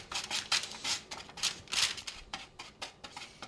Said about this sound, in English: I'm going to pour them, put them onto your greased parchment paper, and spread them out so they're a single layer